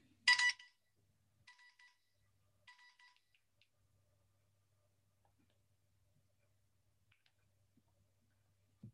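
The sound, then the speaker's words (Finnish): A phone ringtone sounds for an incoming call: one loud, bright electronic burst, then two shorter, fainter bursts. After that the line is almost silent, with a low steady hum underneath and no voices. “anteeksi, Martti soitti”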